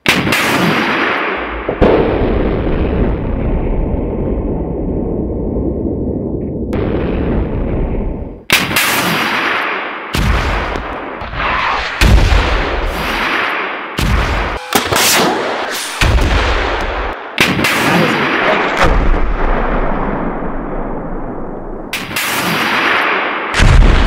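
Saab NLAW anti-tank weapon firing: loud, sustained booming roars are broken by many sharp blasts and cracks, powerful and continuous throughout.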